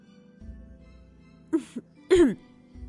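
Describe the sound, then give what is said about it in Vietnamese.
A soft cough voiced by a narrator imitating the sound: two short, faint catches followed by a louder, breathy, voiced throat-clearing hem. “Nhạc Mai Song ho khẽ một tiếng.”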